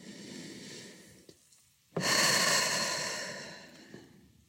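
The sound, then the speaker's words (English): A deep breath: a sudden loud, airy rush of breathing that starts abruptly and slowly fades over about two seconds, after a softer stretch of quieter breath noise; no talking. “Take a deep breath.”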